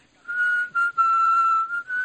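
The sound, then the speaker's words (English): A deaf man whistles a clear, steady tone of nearly constant pitch. He holds it through four notes of uneven length with short breaks between them, and it stands alone without speech. “Who's whistling? Who's doing that?”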